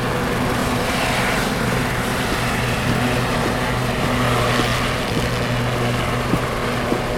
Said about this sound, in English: Paul touches down in an air taxi on the helipad at the Royal Prince Alfred Hospital in Sydney.